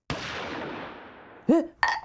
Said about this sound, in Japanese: 銃声？ そのようね。 あれは地下の防空壕跡から。